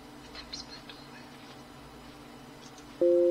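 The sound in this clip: Telephone tone while dialing a call to a police officer: one short, steady electronic beep at the very end, after a stretch of faint background noise.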